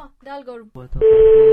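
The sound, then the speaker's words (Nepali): Telephone dialing tones as a call is placed: after brief voices, a steady electronic tone starts and holds, loud and unbroken, to the end. “भइहाल्छ नि, phone गरौँ न त।”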